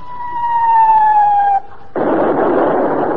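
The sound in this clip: A gunshot is fired during an attack on a boat. A loud whistling tone slides steadily downward, cuts off briefly, then a harsh roaring blast bursts in and holds to the end.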